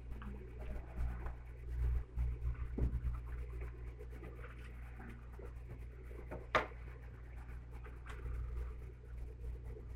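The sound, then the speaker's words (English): Writing on a board gives faint, irregular scratching strokes over a steady low hum, with one sharper tap partway through. “I'm going to apologize up front for my writing.”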